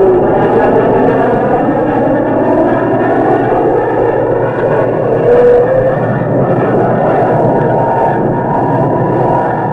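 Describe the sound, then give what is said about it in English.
Jet roar of a 104 nuclear bomber streaking in low, a loud, dense, steady rumble that holds throughout with slight swells and no voices. “The 104 is also a nuclear bomber. It streaks in low under radar's horizon.”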